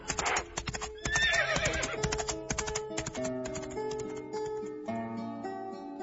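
A horse neighs with a sharp whinny early on while its hooves clip-clop in an uneven run of knocks that continues throughout.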